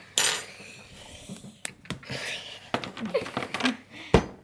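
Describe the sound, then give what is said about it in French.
A knife cuts 240 grams of chocolate into pieces, four people working at once: faint, irregular sharp clicks and cracks scattered throughout, with a louder snap near the start and another near the end. “on est à 4 en train de couper 240 grammes de chocolat.”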